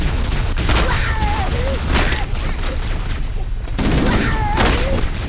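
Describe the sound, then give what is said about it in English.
Machine-gun fire rattles in dense, continuous bursts, loud and sustained across the whole stretch with only brief dips in intensity. “So this is the Chicago hello, where we load our machine gun up and then we let it rip.”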